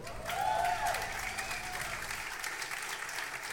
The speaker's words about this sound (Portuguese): agradecer de coração e pedir uma salva de palmas a Stefan San Juan